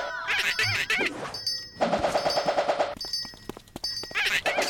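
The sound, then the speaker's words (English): Rapid shots from a pachinko weapon in a video game, fired between shield moves: many quick, bright popping bursts in clusters, layered over steady game tones and chiming effects. “Shield, shoot, shield, shoot. I'm going to use this pachinko to ruin Carla's day.”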